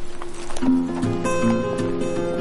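Hooves of a horse clop in a steady walking rhythm as it moves off after a slap on its back, set against tonal music in a western film.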